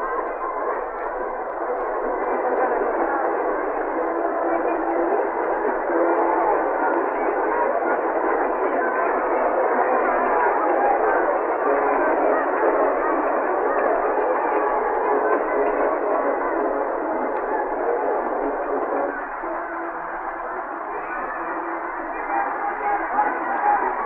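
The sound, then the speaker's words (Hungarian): Steady, continuous rattling and rumbling of field artillery batteries and wagons rolling past in a military procession on the first day of Kassa's return in 1938. The din stays dense and even throughout, easing slightly near the end. “már a tábori tüzérség osztagai jönnek egymás után, ütegek egymás után, itt-ott egy-egy szekér. Szekerek zörgét is, oda lent közelebb elhelyezett mikrofonot biztosan jól továbbítják kedves hallgatóink füléhez.”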